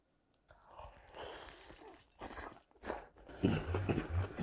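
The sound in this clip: Chewing on fried chicken dipped in seasoned sauce, with soft, irregular crunching bites and wet mouth sounds, faint throughout.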